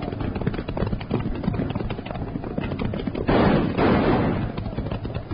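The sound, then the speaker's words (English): Gunfire in a Western radio drama set during a chase on horseback. Many rapid shots crackle over a dense, steady clatter of hoofbeats, building to a louder, heavier burst near the end. “Hold your fire, Jingles. We can't hit them from here.”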